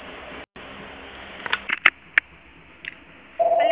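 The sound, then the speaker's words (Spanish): Voicemail beep tone, a single steady mid-pitched electronic beep that sounds near the end after a stretch of low line hiss and a few small clicks. “El usuario no puede recibir llamadas en este momento. Por favor, deje un mensaje en la casilla de voz después de la señal.”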